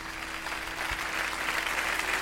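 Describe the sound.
Applause from rock band fans at a concert. A thick, steady sheet of clapping from many hands runs throughout and swells slightly partway through.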